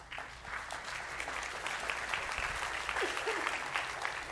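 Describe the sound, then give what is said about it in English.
Audience applause welcoming a pastor to the stage, a dense, even wash of clapping that holds steady at the same level from start to finish. “I'm going to invite Pastor Zach Patterson up. Would you please welcome him to the stage?”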